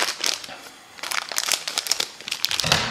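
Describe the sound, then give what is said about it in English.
Crinkly rustling and crackling of a 70-gram plastic bag of draże candy, tiny white sugar balls, as it is cut open, a dense run of many small crackles that grows busier toward the end. “So let's get started today by trying out our first bag of the draże. Draże, by the way, are something like draggies or drops. Not quite sure the right English word for draże. But let's cut this open and give it a try.”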